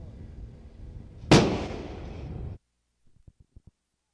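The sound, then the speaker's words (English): A single gun round fires with a sharp, loud crack over a low rumble. Its noisy tail rings for about a second before cutting off, then a few quick small clicks follow. “Fire one round.”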